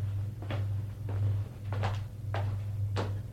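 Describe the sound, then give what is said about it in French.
A few knocks on a living room door, separate sharp raps at an uneven pace over a steady low hum, with no talk. “frappe à la porte du salon. Entrez.”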